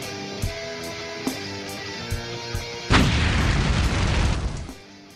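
A stage pyrotechnic fire effect bursts out as a sudden, loud roaring whoosh over rhythmic background music. It holds for nearly two seconds, then fades away.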